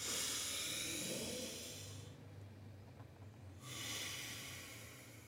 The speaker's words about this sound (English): So here we go. Take a deep breath through the nose.